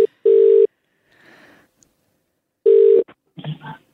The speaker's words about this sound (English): All right, we're dialing.